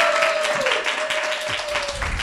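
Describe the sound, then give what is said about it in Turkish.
Applause welcomes a guest speaker at a religious gathering. Dense, steady clapping with a held tone running beneath it. “Bu yüzden alkışlayarak onu karşılayacağız.”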